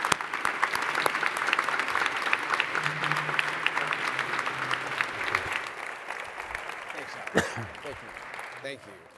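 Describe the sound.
Applause from an audience welcoming panel speakers at a talk on quick service restaurant growth: dense, sustained clapping fills the whole stretch at an even level, then thins and fades slightly toward the end.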